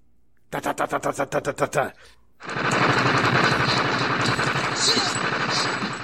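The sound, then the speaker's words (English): A voice imitates machine gun fire: a rapid string of short, punchy vocal bursts, a brief pause, then a longer, continuous rattling burst of breathy noise, loud and alone. “I like my machine gun sounds.”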